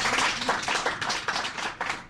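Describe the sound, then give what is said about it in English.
Applause from many hands, a dense, continuous patter of clapping at moderate level, with no voices standing out. “So thank you very much, and round of applause.”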